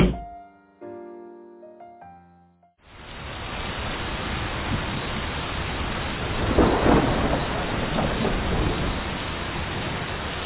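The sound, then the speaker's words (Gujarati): Torrential rain with thunder: a dense, steady roar of downpour that swells into a rumbling thunder peak midway and stays loud throughout, after a short soft tonal passage at the start. “ત્યાર પછી વરસાદ આવ્યો। 40 દિવસ ને રાત એટલો બધો ધોધમાર વરસાદ પડ્યો”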